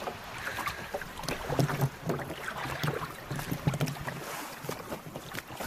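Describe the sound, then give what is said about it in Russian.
Oars dip and splash as a small boat is rowed toward a grotto, with a few rhythmic strokes and water sloshing over steady wind and water noise. “Гребет по направлению к гроту.”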